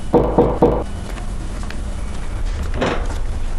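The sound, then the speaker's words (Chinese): Knocking on a door: three sharp raps in a quick, even rhythm, followed by a steady low background hum with no further knocks. “我先挂了，有人敲门。”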